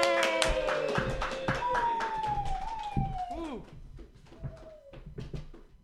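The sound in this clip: An open mic comedy audience claps for a comedian being introduced. Quick sharp claps come with high gliding whoops and cheers, and the clapping thins and fades toward the end.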